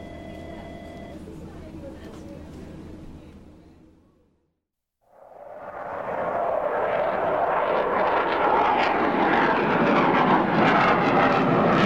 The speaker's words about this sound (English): We picked a great day to land. The port is socked in. No problem. We have minimums. You just shout out when you have the runway in sight.